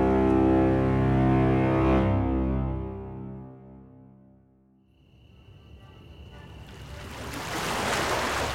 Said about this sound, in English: I was back where all my adventures took me. Back to the harbor. Back to the ships bound for somewhere,